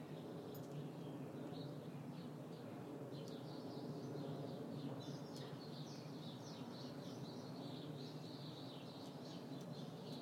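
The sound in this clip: Birds chirp and call faintly, with scattered high chirps repeating over a steady low background hiss throughout.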